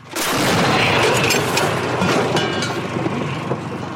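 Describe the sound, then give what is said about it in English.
A 50-year-old Soviet D-20 artillery gun fires, a sudden loud blast that rolls straight into a dense, roaring rumble lasting several seconds. “Still mostly relying on old Soviet weaponry. Like this 50-year-old D-20 artillery gun.”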